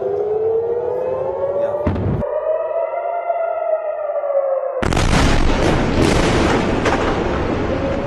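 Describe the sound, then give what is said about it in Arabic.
A ballistic missile striking its target: a wailing, siren-like tone gives way to a harsh, dense roar of explosion noise that stays loud until the end. “صواريخ باليستية نالت الكيان الإسرائيلي ونالت من تل أبيب وأحدثت دمار. هذا صاروخ يصل إلى الهدف، هذا صاروخ يصل إلى الهدف.”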